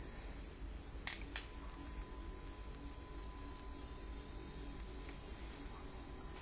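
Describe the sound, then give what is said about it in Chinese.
Shrill, unbroken trilling of a katydid-like insect. A steady high buzz runs throughout, with a faster pulsing chirp layered on top and a couple of faint clicks underneath. “有点像那蝈蝈的那个感觉，是不是？这还弄不好就是一蝈蝈，只不过叫的不太一样。”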